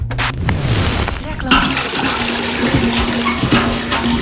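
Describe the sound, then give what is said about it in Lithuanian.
Heavy water pouring as if emptied from a bucket, a loud steady rushing splash that runs unbroken through the whole stretch. A low sustained tone sits beneath it, and a brief voice-like sound appears at the start. “aš dabar galvoju, kaip čia man iliustruot tą pilimą? Pilimą, žinai, nu kaip iš kibiro vis dėlto pilą”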